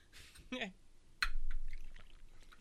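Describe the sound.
Liquor poured from a bottle into a glass, a sudden splash that settles into a steady low stream for under a second, with brief vocal sounds just before it.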